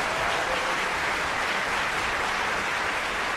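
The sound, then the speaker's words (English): Audience applause at a cycling trivia game show, a dense, loud, even wash of clapping that holds steady from start to finish. “Come on, audience. Give him a little help over here. Encouragement.”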